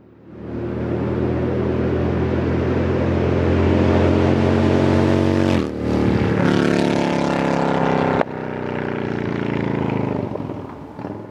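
Loud, steady engine drone from a motor vehicle with a rich harmonic hum. It breaks briefly just past the middle and shifts abruptly near the end before running on.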